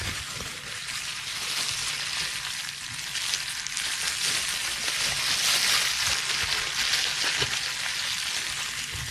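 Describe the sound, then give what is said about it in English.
Dense, continuous crackling of bubble wrap being crinkled: a steady, bright, high-pitched hiss of tiny crackles at even loudness throughout, with no voices. “One of the most popular ASMR sounds is probably crinkling bubble wrap. Here's some crinkling.”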